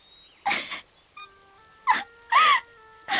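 A woman cries and sobs in several halting, gasping bursts over quiet, sustained musical tones.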